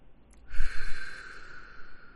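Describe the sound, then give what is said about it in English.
One deep breath, drawn in sharply and loudly into the microphone. The airy rush then eases off and fades gradually, with no voices. “Let's take a deep breath.”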